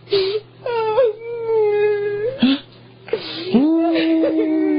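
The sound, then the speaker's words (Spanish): A person cries and wails in long, drawn-out moaning tones that waver in pitch. A few sustained wails are broken by short pauses, fairly loud over a low steady hum. “¡Ahora te pones a llorar! ¡Ahorita estaba riendo!”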